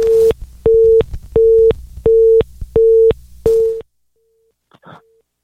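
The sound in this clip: A telephone line tone from a disruptive call-in caller: six steady, even beeps in a regular on-off rhythm, loud and alone, followed by a faint trailing tone and a brief soft noise.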